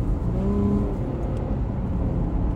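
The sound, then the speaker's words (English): A V6 engine in a manual American muscle car rated at 310 horsepower revs loudly and steadily, a low, dense drone that holds without a break, with no voices over it. “Hear that V6? That's pure American muscle right there.”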